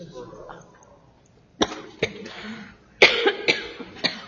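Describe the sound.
A person coughs in a fit after choking during an opening prayer at a legislative session: a few sharp, harsh coughs in irregular bursts, the later ones loudest and closest together.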